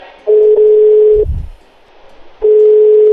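Telephone ringback tone heard while placing a call: a steady mid-pitched tone holds for about a second, breaks off, then starts again; a low rumbling thud fills the pause between the two tones.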